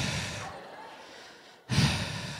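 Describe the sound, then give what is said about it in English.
Heavy breathing from a portly speaker who is out of breath from talking: a long breathy exhale fades, there is a brief silence, then a louder, rougher breath bursts in and continues. “Now, for some reason, as a portly person, talking has made me out of breath. Quite significantly.”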